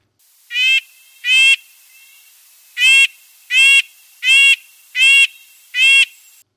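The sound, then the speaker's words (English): A red-breasted nuthatch gives seven nasal, tinny 'yank' calls, clear and fairly loud over a faint steady hiss, spaced in an uneven rhythm with a longer pause after the first two. “That nasal yank, yank, yank was the call of the red-breasted nuthatch.”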